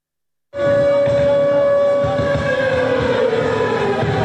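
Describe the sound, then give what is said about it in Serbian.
An air raid siren starts abruptly to open a charity concert in support of Ukraine, held in Belgrade. The loud, sustained mechanical wail has a droning steady tone at its core and runs without pause to the end. “Sirene za vazdušnu opasnost i pevačica obrnuta zastavom Ukrajine označile su početak humanitarnog koncerta u Beogradu.”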